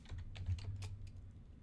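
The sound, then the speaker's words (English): Quiet, rapid keystrokes on a computer keyboard as a prompt is typed into Copilot, with a faint low hum beneath the clicking. “let's go back to Copilot and type in, can you create”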